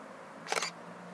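A camera shutter snaps once during a walk through a botanical garden as spindle-tree fruits are photographed: a short, sharp mechanical click cluster above a quiet, steady background hiss.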